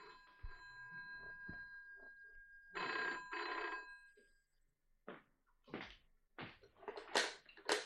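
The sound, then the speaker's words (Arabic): In a drama scene, a telephone rings faintly: a steady ringing tone is followed by two short, distinct rings, then a few scattered clicks and knocks. “اقوم انا ارد على التليفون”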